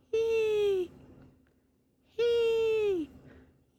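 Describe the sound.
A woman's voice imitating how she sounded breathing laughing gas during labour: two drawn-out, moaning vocal tones, each sliding downward in pitch, separated by a quiet pause.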